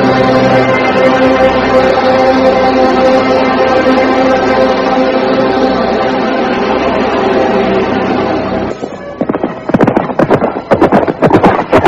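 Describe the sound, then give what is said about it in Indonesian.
Horses gallop away from a riverbank, their quick, uneven hoofbeats clattering loudly over the last few seconds after a long, steady sustained sound. “Cakradara dan kuda mereka melarikan kudanya meninggalkan tepian sungai Pedanten.”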